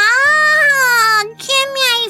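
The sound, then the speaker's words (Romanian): A girl cries in two long, drawn-out wails. The first is high, sustained and slowly falling in pitch, and the second is shorter after a brief break. “Ce plângi așa?”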